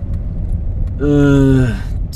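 A car driving through town gives a steady low engine rumble that runs throughout, with a brief tonal sound midway.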